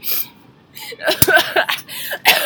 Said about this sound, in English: can you stop coughing